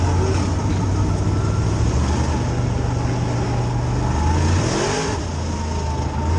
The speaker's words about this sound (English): You give it gas and the clutch. You're rolling, keeping the clutch down. Now he's gonna, boom, now he just shifted.